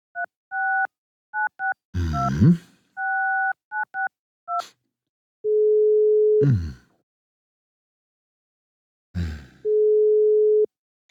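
Telephone keypad tones as someone dials a call, heard as quick paired beeps in short bursts with a few clicks. Two long, steady, mid-pitched call tones follow, separated by a pause. No one speaks.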